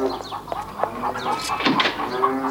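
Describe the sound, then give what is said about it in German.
Restless farm animals stirring in a barnyard: hens cluck and squawk among other livestock calls, many short, overlapping cries of varied pitch forming a continuous, agitated chorus. “Warum sind die Tiere nur so unruhig? Sehr seltsam.”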